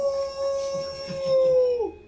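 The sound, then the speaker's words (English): A person imitates a wolf howl to intimidate the forest in a tabletop role-play game. One long, steady, fairly loud sung note with bright overtones holds for about two seconds, then dips down in pitch as it ends. “And let out a wolf howl. My own.”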